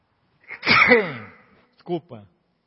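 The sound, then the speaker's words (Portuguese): A loud sneeze with a drawn-out voiced burst that trails off, followed by a brief second vocal sound. “desculpa, eu não sei espirrar sem ser um escândalozinho, amém?”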